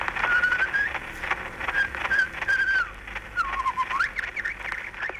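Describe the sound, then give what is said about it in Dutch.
Whistled birdsong from an 1889 phonograph nature recording: several clear, tonal phrases over heavy hiss and crackle, with one late phrase dipping and then sweeping upward. “In 1889 was hij 8 jaar en kreeg een fonograaf cadeau, waarop hij misschien wel de oudste natuuropname maakte ooit van vogelzang.”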